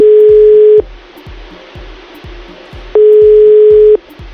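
Ringback tone of a telephone call waiting to be answered: two loud, steady, long beeps separated by a pause, over a low rhythmic background.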